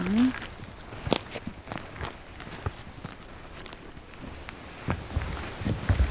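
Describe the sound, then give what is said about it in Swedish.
Footsteps along the old-growth forest trail in Tyresta National Park: a steady run of soft, irregular steps crunching on the ground, with a few sharper scuffs standing out. “Vi går alltså urskogsstigen, heter det, i Tyresta nationalpark.”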